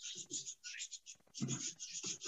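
A pen scratches faintly as a chemical formula is written by hand, a string of short, quiet strokes with brief pauses between them.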